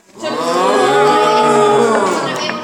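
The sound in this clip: Cattle mooing in one long, loud, rich bellow that holds steady for over two seconds and tapers slightly at the end, with no other sounds.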